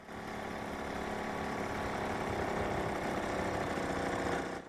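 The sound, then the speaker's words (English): Steady engine drone of a small motorized bike, a buzzy mid-pitched hum that holds an even level throughout with no clear change in loudness. “He looks up as the bike slowly approaches.”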